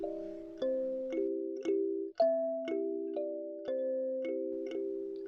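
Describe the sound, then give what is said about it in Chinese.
Wind chimes of the kind hung in highland hotel rooms ring out in an even series of bright metallic strikes, roughly every half second, each leaving sustained overlapping tones that shift from note to note, with no voices. “可要小心，当你入住云顶高原的酒店时，或许还有些房间的风铃忘记被拿下来哟。”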